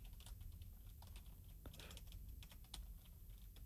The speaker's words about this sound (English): Let me slowly type this out because my fingers are frozen.